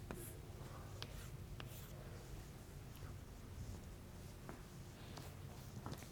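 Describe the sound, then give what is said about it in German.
Pen strokes on a board as absolute value bars are drawn around a sketched magnitude response. Faint, short scratches come at irregular moments over a steady background hiss. “Was ich hier gezeichnet habe, ist natürlich die Magnitudenantwort. Also machen wir hier mal noch Betragsstriche drum.”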